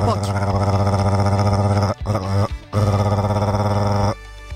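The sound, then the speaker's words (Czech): A voice imitates a home coffee machine with a loud, buzzing, gurgling drone that cuts out briefly twice before resuming strongly and then tapering off. “já umím udělat náš kávovar”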